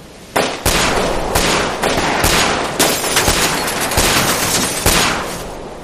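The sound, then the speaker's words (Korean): Gunfire as guards shoot at a man by a bus in the snow: many sharp, loud shots at an irregular pace, with no pause, overlapping into a continuous crackling barrage. “수비대도 총을 겨누고 검은 점퍼 사내를 향해 총을 쏜다.”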